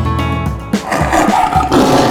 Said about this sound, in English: Tiger wants to get on, he'll be sad if we don't stop.